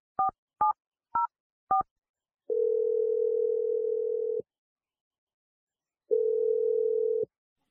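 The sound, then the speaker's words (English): A telephone number is dialed with four short touch-tone beeps in quick succession, followed by two long, steady tones separated by a pause. “I'm dialing his number right now.”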